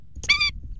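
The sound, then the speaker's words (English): Indian skimmer, an orange-billed water bird of South Asia, gives one short, nasal call with rich harmonics, clear above a faint low background rumble. “That's the sound of the Indian skimmer, a unique orange-billed water bird native to South Asia.”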